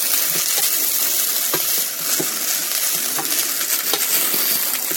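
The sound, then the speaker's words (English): A cooking pot being stirred on the stove so nothing burns: scattered scraping taps and clinks over a constant loud hiss, with no talk. “Give my pot another stir. Don't want anything burning here.”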